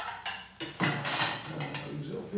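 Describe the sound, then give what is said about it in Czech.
A pancake frying in hot oil in a pan: a continuous, fairly quiet sizzle and crackle, with a voice speaking over it. “Se nám to krásně smaží.”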